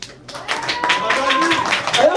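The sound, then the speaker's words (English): A group gathered for a New Year galette celebration with rough sleepers breaks into clapping after a brief silence. The uneven hand claps continue while people talk over them. “Applaudissez-vous quand même.”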